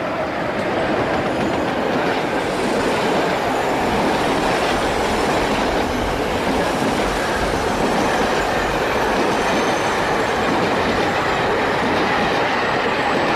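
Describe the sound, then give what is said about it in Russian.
A passenger train rolling along the rails, a loud, steady rumble with a rhythmic clickety-clack of wheels that continues unbroken throughout. “Едет поезд.”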